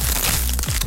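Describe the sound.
Crunching of Crunch tortilla chips, a Costa Rican snack, heard as one brief, dense burst of dry crackling that fills the whole short moment.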